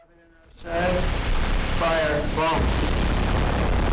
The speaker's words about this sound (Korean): 미국 군함이 이란 국기를 달고 날아오는 군용기에 고출력 레이저로 보이는 무기를 발사하자 항공기는 산산조각납니다.